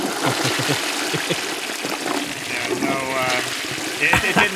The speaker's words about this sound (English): Oh boy, I can barely even hear you guys over the sounds of a toilet's running.